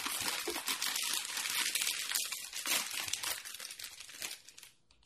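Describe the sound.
A bag of Covered Bridge potato chips is torn open with bright, continuous plastic crinkling and rustling that tapers off and falls quiet at the end.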